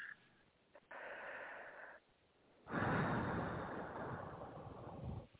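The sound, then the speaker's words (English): A deep breath, taken alone: a steady, soft inhale lasting about a second, a brief pause, then a longer and louder breathy exhale that fades out. “Taking a deep breath.”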